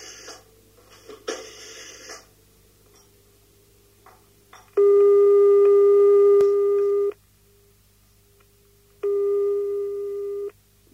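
A telephone line tone before a call: two long, steady, loud electronic tones, the first lasting about two seconds and the second shorter, separated by a quiet gap and preceded by faint low noise.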